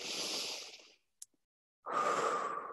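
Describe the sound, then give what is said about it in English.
Deep breathing in a heart meditation: a long airy breath, a silent pause broken by a faint click, then another full, strong breath, with no talk. “Breathe. Take a couple of deep breaths. Create some space first.”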